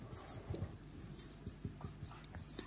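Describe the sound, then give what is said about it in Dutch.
Fast handwriting, rushed enough that letters get skipped, makes faint, quick scratching strokes in an irregular rhythm, with a few slightly louder taps as the pen moves on. “Ik schrijf zo snel dat ik letters over ga slaan.”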